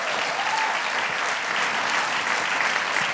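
A church audience applauds to welcome a new pastor, giving steady, dense clapping that holds its loudness from start to finish.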